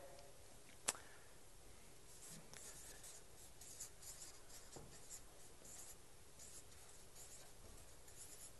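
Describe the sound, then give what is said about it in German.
Pen scratching across paper as a few things are written down, a soft, steady scrawl with faint strokes and one sharp click near the start. “Und ich schreibe uns da ein paar Sachen auf.”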